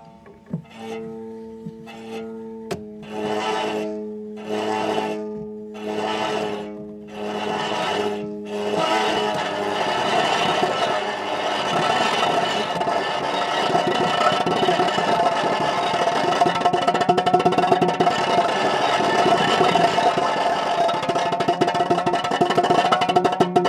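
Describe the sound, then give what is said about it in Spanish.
A homemade instrument drones as a hand-cranked wheel rubs a string while a lever shifts its tension. Pulsing bowed tones with stepping pitch come first, then a louder, rougher, continuous scraping drone. “En lugar de tener un motor que hace que gire la rueda, que frota la cuerda, pues estoy dándole a una manivela, ¿no? Y luego a la vez muevo un poquito la palanca que tensa la cuerda.”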